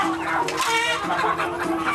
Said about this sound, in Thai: คนกัมพูชานิยมกินไก่เลี้ยงตามธรรมชาติหรือที่บ้านเราเรียกว่าไก่บ้านนั่นแหละครับ